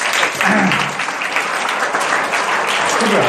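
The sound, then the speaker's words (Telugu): Loud audience applause breaks out during a Telugu talk on memory and forgetfulness. Dense clapping sounds continuously for a few seconds. “చప్పట్లు కొట్టాలా దోరి.”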